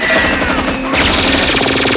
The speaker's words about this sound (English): One of Petrovita's men returns fire. Petrovita's held down for safety. The man returning fire is shot.